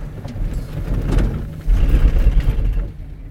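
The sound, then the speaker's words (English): Steady mechanical rumble and whir of a ski gondola at a chairlift station as it comes in and starts heading up. The low drone grows louder partway through, then eases off toward the end. “Jump onto the gondola. Coming in. and we're heading up.”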